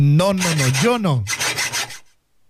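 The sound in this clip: A handsaw rasping through wood in a few quick, rhythmic strokes, preceded by a gliding tonal whine that rises and falls in pitch, then the sawing stops abruptly into silence.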